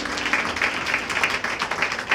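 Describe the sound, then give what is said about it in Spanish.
Applause from an audience during a worship service, a short burst of dense, continuous clapping at a steady, moderate level. “denle un aplauso a Jesús, por favor”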